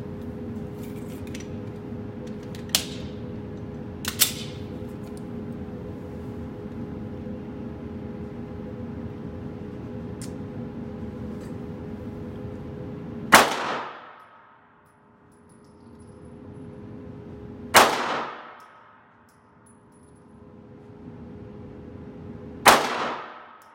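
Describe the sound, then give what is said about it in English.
Five pistol gunshots fired at a target 75 feet away: two fainter cracks early on, then three loud, sharp reports several seconds apart, each with a short decaying tail. “So I'm gonna try and hit that pink blob center mass. Some days I can do it, some days I can't. We'll see what happens. We're gonna go five rounds here.”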